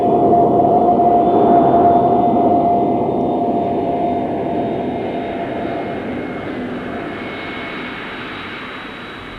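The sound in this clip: Jet airliner landing with its landing gear lowered, a loud continuous engine roar with a steady high whine that slowly eases off in level over several seconds.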